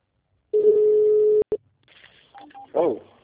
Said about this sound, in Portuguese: Caiu a ligação. É, caiu ou você desligou? Não, caiu.